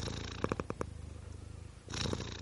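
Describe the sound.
A house cat with a striped face purrs in a low, steady rhythmic rumble. The purr is fairly soft, with a few brief brighter bursts early on and near the end, and no voices are present.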